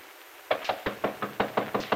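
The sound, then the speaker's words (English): Nine crisp knocks on a bedroom door, evenly spaced in a steady rhythm and moderately loud, with quiet around them. “Penny has just finished dressing when there's a knock on her bedroom door.”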